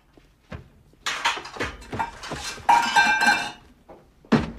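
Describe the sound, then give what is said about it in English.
Someone rummages through a kitchen cupboard, making an irregular series of knocks, shuffles and clinks of dishes and metal objects, with a final sharp knock and no talk. “In the kitchen, Vincent opens a cupboard. No, the one by your knees. Vincent rifles through the cupboard as the men wait tensely.”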